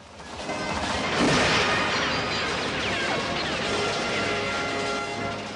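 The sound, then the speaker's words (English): An RV smashes into gates and forces them open, producing a loud crash that swells into a broad, rough roar of noise sustained for several seconds before easing off. “The RV smashes into the gates, pushing them open.”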